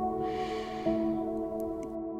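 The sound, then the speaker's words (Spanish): A deep breath is drawn in through the nose, a soft airy hiss that swells and then fades, over a sustained tonal drone. “Inhala por la nariz.”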